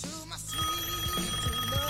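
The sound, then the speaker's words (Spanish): A telephone ringing tone plays on the line while a call is being placed: a steady electronic tone with a few soft, regular low pulses beneath it. “Bueno, lo voy a llamar a Umbi, a ver qué carajo quiere. Ah, no, cierto que le llamo yo.”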